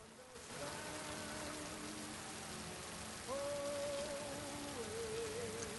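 Pouring rain falls on a street as a steady, dense hiss that continues throughout. Faint sustained melodic tones sound above it, and a brighter line enters partway through.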